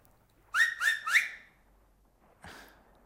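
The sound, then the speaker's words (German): Three shrill finger whistles come in quick succession, each a short, bright tone. After a pause, a single dull knock follows, with no talk. “Am Mittag, wenn die Karawane kommt, auf meinen Fingern pfeife ich dreimal.”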